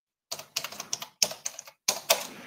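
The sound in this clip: Typing on a computer keyboard while writing a quick message: three rapid bursts of crisp key clicks separated by short pauses, alone and fairly faint.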